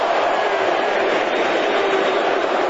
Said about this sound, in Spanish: Desde Vancouver, segundo nada más para el arranque, la gente también y el estruendo del público en Vancouver.